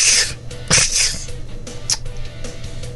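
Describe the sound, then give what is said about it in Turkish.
A sneeze: short, breathy bursts with bright hissing noise above a steady low hum, no speech over it. “Bak şu hapşırık. Hı. Amacına ulaşmış bir hapşırık var.”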